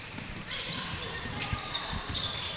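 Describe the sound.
Basketball dribbled on the court during a women's game: several sharp, hollow thuds of the ball striking the floor over a steady background murmur, with a voice talking throughout.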